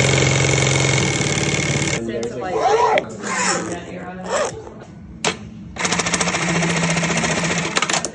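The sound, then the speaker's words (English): Industrial sewing machines whir and rattle in a bag-making workshop with a steady, rapid mechanical buzz. The buzz drops out for a few seconds while a voice is heard, then resumes loudly. “And then you hear all the whirling of all the machines. And everybody's sewing.”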